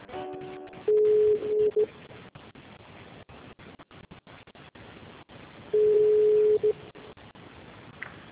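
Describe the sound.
A telephone signal on an office extension line plays two steady single-pitch tones, each about a second long. Several seconds of quiet line hiss separate them, and a short burst of tones is heard at the start.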